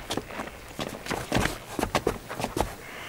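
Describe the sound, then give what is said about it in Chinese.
Troops running in formation, with many irregular footfall thuds overlapping in a quick, uneven patter of moderate loudness. “跑步走。”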